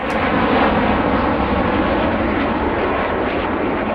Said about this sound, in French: Ce bruit des CT-114 Tutor, les Canadiens ne l'entendront plus après la saison 2026.